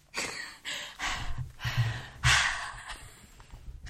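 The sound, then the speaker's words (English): A person taking a big breath and snorting: a series of loud, breathy bursts of air in and out, with one longer and stronger rush of breath near the end, and no talk over it. “Look at that. That's a big breath. And your snorts.”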